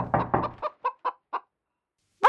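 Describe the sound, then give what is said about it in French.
A hen clucks in a quick run of short, throaty clucks that spread further apart as they go. After a brief silence she gives one sharper, higher squawk. “Salut, dit Plumette la poule.”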